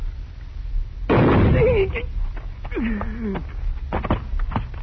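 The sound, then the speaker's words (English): A single loud gunshot in a western radio drama gunfight bursts out about a second in, leaving a brief noisy tail, and a man's voice follows. “It is impossible that someone could shoot faster than Senor Drew. And with your left hand. Oh, Chico, you are so very quick with your gun.”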